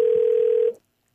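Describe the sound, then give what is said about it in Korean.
A single steady ringback tone from an outgoing telephone call to a randomly chosen participant, lasting under a second before cutting off to silence. “자, 저희가 무작위로 58번 주신 분 가운데 전화를 드려봅니다. 자, 전화를 받아주셔야 되는데.”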